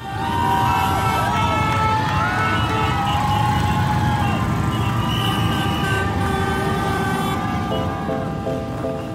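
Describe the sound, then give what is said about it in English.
The Dykes on Bikes motorcycles open the 2018 Sydney Gay and Lesbian Mardi Gras parade with a continuous loud roar, and wailing siren-like tones and horn toots ride over it throughout. “That's the distinct sound of the Dykes on Bikes opening the 2018 Sydney Gay and Lesbian Mardi Gras, just like they do at Pride parades all around the world.”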